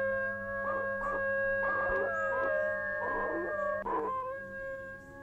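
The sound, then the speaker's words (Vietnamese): A person imitates a dog's howl with a drawn-out, steady tonal wail that carries through the whole moment, broken by a few rougher, louder bursts. “Tôi vội bịt mồm, không hiểu tại sao bản thân mình lại chu lên như thế.”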